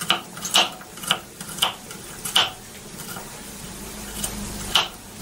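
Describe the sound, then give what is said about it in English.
A knife chopping garlic while cooking egg fried rice: a steady series of crisp, sharp taps at roughly half-second intervals over faint, constant background noise. “Right, now I'm going to chop the garlic up.”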